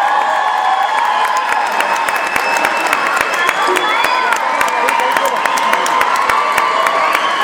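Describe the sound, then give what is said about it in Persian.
A concert audience applauds and cheers. Sharp, rapid claps ring out over a continuous roar of crowd voices and shouts, loud and unbroken from start to finish. “این شما و این سامان گوران به افتخارش دست خوشگل است.”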